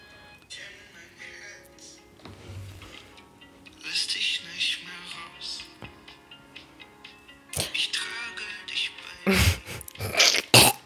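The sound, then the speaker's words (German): Gagging and retching as vomit rises in someone's throat: a few harsh, noisy throat bursts, growing louder and more forceful in the second half, over a faint, busy background. “Entschuldigung, mir kam gerade ein bisschen Kotze hoch.”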